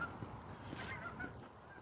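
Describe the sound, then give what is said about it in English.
Geese honk faintly, giving a few short nasal calls over a steady low background hum. “Oh, geese.”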